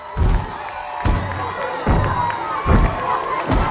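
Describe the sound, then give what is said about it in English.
Crowd cheering and shouting around a stage during a frat brothers' stomping, slapping step dance, with five heavy, evenly spaced thumps landing under a constant wall of loud voices. “They stand amid a crowd gathered around a stage as the blue-faced frat brothers perform a manly stomping slapping dance.”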